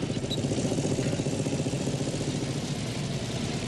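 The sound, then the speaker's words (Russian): A motorcycle carrying a body, near a barn, gives a steady engine rumble, an even, continuous low drone that holds without a break for the whole stretch. “Мотоцикл с телом останавливается около амбара.”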